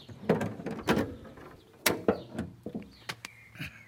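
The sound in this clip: Clunks and clicks as the hinged canopy flap of a Messerschmitt cabin scooter is opened and shut: several sharp latch knocks and small rattles, fairly faint, scattered across a few seconds.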